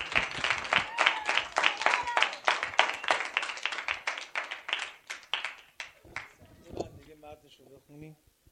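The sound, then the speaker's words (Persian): An audience claps along in steady rhythm, many quick sharp claps at a fairly even pace. The clapping thins out toward the end as a voice comes in. “یه دست بزن.”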